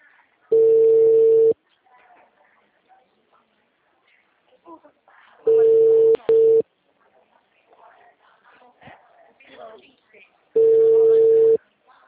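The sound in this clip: An unanswered telephone call rings out as a ringback tone: three steady, mid-pitched tones of about a second each, evenly spaced several seconds apart, with faint voices murmuring quietly in the gaps.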